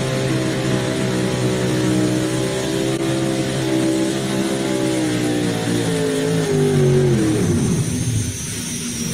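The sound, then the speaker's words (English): A Chevrolet pulling truck's engine roars on a truck-pulling track, a loud, sustained throaty drone holding steady pitch before dropping sharply toward the end as the engine winds down. “Over on the other side in the wife's truck, here comes Paul Tyus, the Mischief Maker Chevrolet.”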